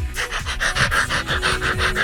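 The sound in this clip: A dog pants excitedly in quick, steady, breathy bursts, loud and close, with no pause.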